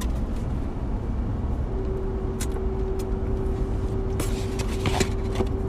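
A vehicle drives along with a steady low road rumble and engine drone, a faint constant hum, and a few light clicks and rattles near the end.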